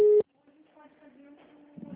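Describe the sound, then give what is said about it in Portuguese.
A telephone tone while a call is transferred to an agent: one short, steady electronic beep, cut off abruptly, followed by a faint low hum. “Por favor, aguarde. Estamos transferindo sua ligação para nossos atendentes.”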